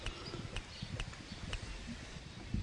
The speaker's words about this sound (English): He showed us what he can do, like dribble a three-inch ball in the air while galloping down the field 20 miles an hour.